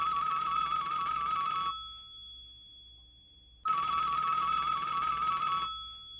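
Telephone ringing for an incoming call: two long bursts of warbling electronic ringtone, separated by a pause of about two seconds, with no talk.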